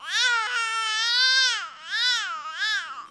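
A baby cries in a single continuous wail shaped into four melodic arcs. Each arc swells and falls in pitch, the first longest, then three shorter bends in quick succession.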